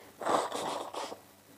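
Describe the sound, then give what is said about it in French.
Someone blows their nose: a breathy, rasping nasal burst followed by a shorter second push of air, then quiet. “Pardon, je peux me moucher.”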